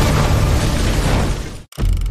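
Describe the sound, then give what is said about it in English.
Explosion as a tank rolls off a stone bridge onto a causeway: a loud, broad, rumbling blast that roars for almost two seconds, cuts off abruptly into brief silence, then bursts back in. “But as it rolls off the stone bridge onto the causeway, an explosion goes off.”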